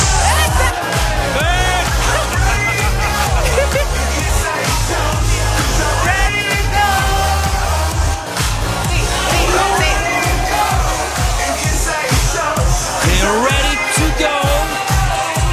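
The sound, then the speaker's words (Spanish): A crowd of single men and women shouts, yells and whoops together at a late-night party. The overlapping voices stay loud and continuous for about fifteen seconds. “Quiero escuchar esos gritos de las chicas solteras y los chicos solteros.”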